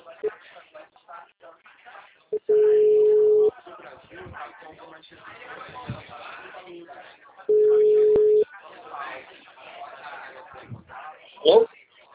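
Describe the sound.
A phone line gives a busy tone after a dropped call. Two steady mid-pitched beeps, each lasting about a second, sound several seconds apart, while people talk between and around them.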